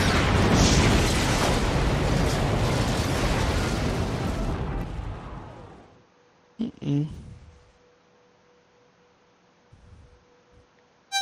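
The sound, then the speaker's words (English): Loud, roaring blast from a missile launch and explosion in a video game, a dense rumble sustained for about six seconds before dying away, followed by a few short, quieter bursts. “so, we will launch a missile, and see what happens next.”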